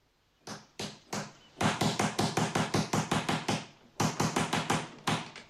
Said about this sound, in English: uses the door knocker